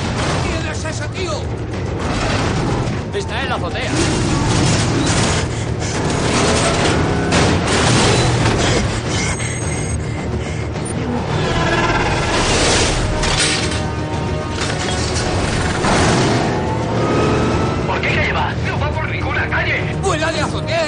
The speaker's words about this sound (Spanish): Tras derribar un muro con misiles, avanza a toda pastilla por la azotea. Al llegar al final de la misma, el coche se autopropulsa y salta hasta la azotea de otro edificio.